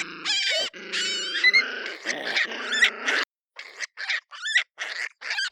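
A screaming groundhog, or woodchuck, lets out shrill, harsh squealing cries: first a nearly continuous stretch of loud wavering screams, then a run of short, sharp bursts separated by brief silences.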